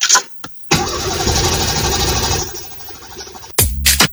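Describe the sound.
A car engine cranks and fires up, heard in an advert for a car electrics repair shop: a short burst, then a steady loud running roar for nearly three seconds, a brief drop, and another burst of engine noise.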